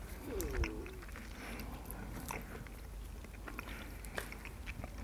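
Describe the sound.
Faint biting and chewing of milk chocolate with hazelnut pieces: a few soft, scattered crunching clicks over a quiet, steady background.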